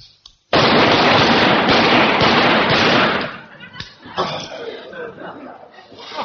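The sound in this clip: A rifle fires five rounds rapid fire on a firing range: a loud, dense burst of shots after a brief silence, then quieter scattered sounds.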